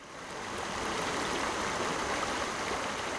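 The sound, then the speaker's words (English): Water flows in the South Fork Roanoke River in Montgomery County, Virginia, as a steady, broad rushing hiss that builds slightly at first and then holds even throughout. “That's the sound of water flowing in the South Fork Roanoke River in Montgomery County, Virginia.”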